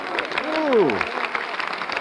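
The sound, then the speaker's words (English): An audience applauds a speaker arriving on the platform, steady clapping throughout, with a brief vocal exclamation rising over it midway before the clapping carries on alone. “Why, it's you. They're applauding you.”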